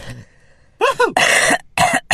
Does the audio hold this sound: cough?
yes